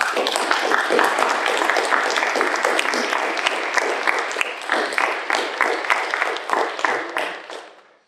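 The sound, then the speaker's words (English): Audience applause welcoming a guest speaker, a professor, to a lecture. The dense clapping holds steady for most of its length, then thins and fades away at the end. “So please help me in welcoming Professor Kamana Beamer.”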